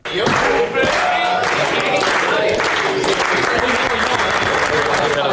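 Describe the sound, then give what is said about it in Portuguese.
The Spain football squad sings happy birthday to Sporting player Fresneda. Many voices blend into one loud, steady mass, with handclaps running through it for the whole time. “Num vídeo publicado pela Federação Espanhola, pode escutar-se um momento em que o plantel de Espanha canta os parabéns ao jogador do Sporting.”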